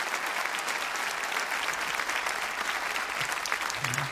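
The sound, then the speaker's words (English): Loud, sustained audience applause at a live concert as the band's bass player is introduced, a dense, steady wash of clapping from a crowd that continues evenly throughout. “Why you got your hands going there one time, if you please? On the bass from way on down the swamp outside of Lafayette, Louisiana, Mr. David Ranson. Come on for Dave.”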